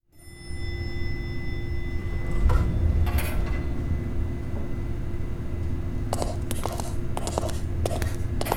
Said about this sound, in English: An elevator behind a bookshelf in your office. How clever.